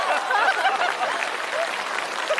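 An audience applauds with dense, even clapping that holds at a fairly loud, steady level throughout without breaks.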